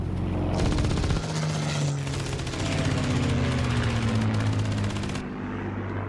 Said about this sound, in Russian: Немецкий самолет выполняет вираж. Советский истребитель неотступно следует за ним.